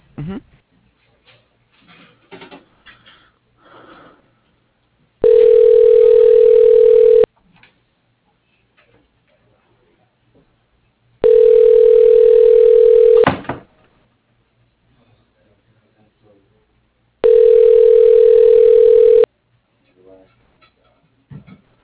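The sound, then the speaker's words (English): A telephone ringback tone plays while a call is being transferred. Three long, steady tone bursts come about six seconds apart, with faint low noises in the gaps. “Let me transfer you to our administrator. Just a moment, please.”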